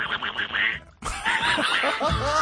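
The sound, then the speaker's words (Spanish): A voice imitates a squawky cartoon duck with nasal, garbled chatter: a short burst, a brief pause, then a longer, louder run of raspy quacking speech. “A ver, que lo hace usted muy bien, el Pato Donald. Es perfecto.”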